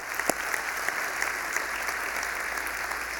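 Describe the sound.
Applause from a church audience welcoming a simulcast campus, a steady, dense wash of clapping that holds at an even loudness throughout.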